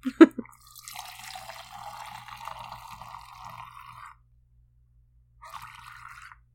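White wine pours from a bottle, starting with a sharp clink. A steady, gurgling stream of liquid follows for several seconds, stops, and then returns in one short final pour.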